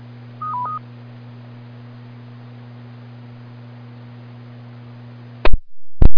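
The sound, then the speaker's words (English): Fire department pager alert tones from Clayton: a brief stepped sequence of electronic beeps over a steady low hum, followed by loud, abrupt bursts near the end. “I'm with the Clayton Fire Department, and our pagers just went off”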